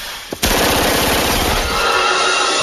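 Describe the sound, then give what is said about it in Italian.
Automatic gunfire sound effect depicting a shooting at an elementary school: a faint crack, then a loud burst of rapid shots that runs on without a break as a dense, sustained rattle. “Un folle fa irruzione nella scuola elementare che anche Andy e suo fratello frequentano e spara all'impazzata uccidendo 16 bambini e un insegnante.”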